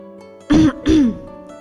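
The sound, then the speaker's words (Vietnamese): A light cough comes as two short, rough, throaty bursts close together, like clearing the throat, alone and with no speech. “Bạch Ngọc Đường ho nhẹ một cái”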